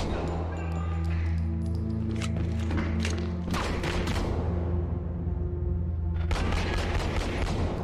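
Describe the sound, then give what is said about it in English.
Gunfire comes from a video game trailer shown as body-cam footage, with shots arriving from all directions. Many sharp bangs and heavy thumps hit over a low, sustained rumble. “You're being shot at from all different directions.”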